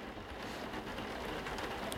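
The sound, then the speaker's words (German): Rain falling, a dense, even hiss that stays at a steady moderate level from start to finish, with faint scattered ticks of drops in it. “Es begann zu regnen.”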